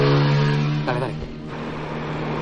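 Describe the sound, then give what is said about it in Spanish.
A motorcycle accelerates past a car parked on a roadside shoulder on a foggy road, a loud droning engine with a brief rising rev near the middle before settling. “El motorista acelera, pasa junto al coche de Anclara.”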